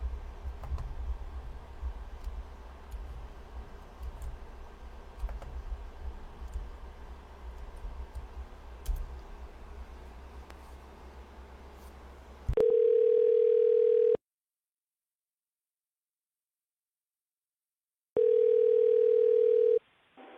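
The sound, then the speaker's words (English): Telephone line tones: after a long stretch of low hiss with faint clicks, a steady electronic tone sounds twice, each lasting about a second and a half, separated by several seconds of silence. “Well, let's try a different number. You know, maybe it's the phone numbers that I'm dialing.”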